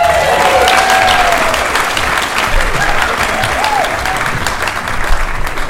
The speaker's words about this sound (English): Could you please put your hands together for Sarah Steele?